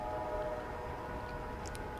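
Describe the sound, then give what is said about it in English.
A train rides along the rails, producing a steady, loud, dense rumble with a faint hum running through it, continuous for the whole stretch with no voices. “I don't know where you are, but I'm on a train”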